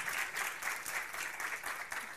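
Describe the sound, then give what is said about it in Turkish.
Dense, steady applause from an audience at a Quran lecture, clapping for a young woman, with many overlapping claps held at a fairly low, even level throughout. “Alkış hak ediyor. Gönlümüzle alkışlıyoruz kızımızı. Tebrik ediyoruz.”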